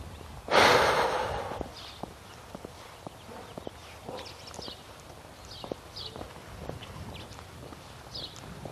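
A loud, breathy snort bursts out near the start and decays over about a second. Many faint, sharp clicking taps follow it against a quiet background.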